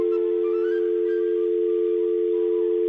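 Steady telephone dial tone, heard while a call is about to be dialed, holding one unbroken pitch for the whole three seconds, with faint higher background sounds above it and no keypad beeps.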